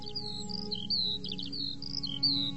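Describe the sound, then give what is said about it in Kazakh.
A lark singing in short, high chirps and quick trilled notes, fairly faint over a low, steady background hum. “Тұрғай сайрағанын көптен есіткен еу еді.”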